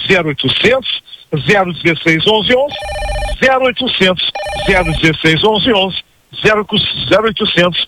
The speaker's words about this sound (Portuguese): Ó, já estão ligando, gente.